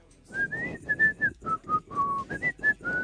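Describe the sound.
A person whistles a short tune of many brief notes that step up and down in pitch, with breathy air noise under each note, heard alone without talk.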